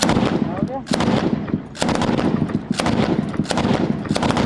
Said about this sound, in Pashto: نږدې د سپکو او درنو وسلو ډزې روانې دي